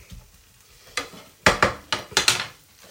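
Leftover pasta is stirred and scraped around a hot pan, a series of sharp scraping strokes over a faint sizzle, with no voices.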